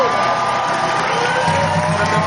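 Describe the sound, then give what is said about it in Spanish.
A crowd cheers and whoops at an event honouring the engineer who built the Dos Bocas refinery, a loud, steady roar of voices that holds throughout. “Un aplauso, por favor.”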